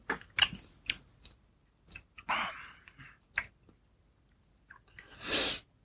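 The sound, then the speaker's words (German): Wine being sipped during a tasting: a few quiet, wet mouth clicks and smacks separated by pauses, then a longer airy slurp near the end. “So, jetzt trinke ich auch mal.”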